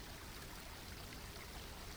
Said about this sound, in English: Look along the banks of the stream and notice the trees and stones.